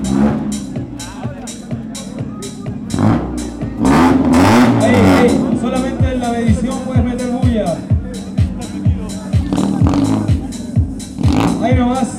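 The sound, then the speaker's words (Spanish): Car engine revving through a loud exhaust during a noisy-exhaust measurement at a car event, with repeated throttle blips and a longer surging rev near the middle over a constant crowd murmur. “Categoría escape ruidoso. Último vehículo. Para el motor”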